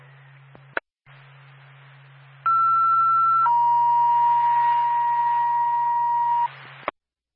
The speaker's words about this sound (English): Twin State Bethlehem ambulance, second tone.